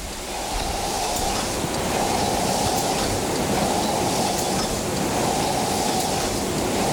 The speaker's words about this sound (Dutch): Het is hier bloedheet binnen. Er staan immense ovens te gloeien. Ik zie overal vuur en vlammen hier in de fabriek.